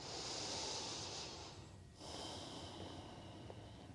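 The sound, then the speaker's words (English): A slow, deep breath taken during a yin yoga session, two long, faint, airy breath sounds separated by a brief pause, with soft noise throughout. “take a deep breath.”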